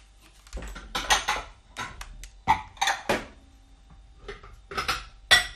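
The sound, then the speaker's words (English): Bowls and dishes clink and clatter as a second, larger mixing bowl is fetched in a kitchen while making puff pastry. Sharp, irregular knocks and bright ringing clinks come in uneven bursts with no talking. “Oh, my bowl's not quite big enough. I've got to get another bowl.”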